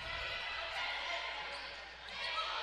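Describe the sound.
A basketball dribbled on the court in a women's game against a man-to-man defense, soft bounces that are hard to pick out from the constant hum of gym and crowd noise.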